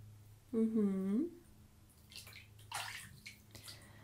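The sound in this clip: A loofah is soaked in bath water, giving a few soft sloshing and splashing bursts. A voice briefly speaks just before the water sounds.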